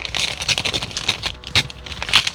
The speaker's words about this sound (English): I don't know why, but that's really satisfying to hear in the earphones. I don't know why it was so hard to open. There we go.